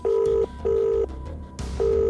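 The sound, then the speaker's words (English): A cell phone rings after a speed dial, heard as three identical steady ringback tones on one pitch, evenly spaced with short silent gaps, over a low background rumble. “And then scrambles to pick it up and speed dials Saber. It rings.”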